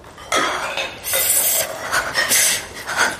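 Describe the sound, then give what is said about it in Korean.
Dishes clatter as they are washed by hand in cold water in winter. A few sharp bursts of clinking crockery come in irregular clusters over a soft, hissing background. “남자가 아무렇게나 던져놓은 그릇들을 씻으며 희미한 입김을 뱉어냈다.”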